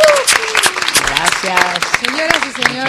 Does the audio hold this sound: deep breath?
no